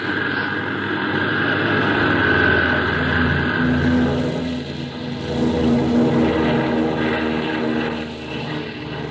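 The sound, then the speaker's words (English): Propeller airplane engines roar for a takeoff, a loud, sustained drone with a steady tonal hum that dips briefly midway and again near the end, with no voices. “All right now, kids, fasten your seat belts. We're ready for the big takeoff.”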